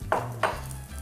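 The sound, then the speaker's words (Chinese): Minced ginger stir-fried in a little oil in a pan: two quick scraping strokes of a utensil against the pan over a faint, steady sizzle. “我们再下一点点一点油，然后现在我们再来炒姜末”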